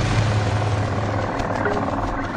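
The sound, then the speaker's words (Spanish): The engines of a modern twin-engine jet airplane inside a large cave: a steady, loud, low rumbling drone with a constant hum that barely changes. “un moderno avión de reacción de dos motores.”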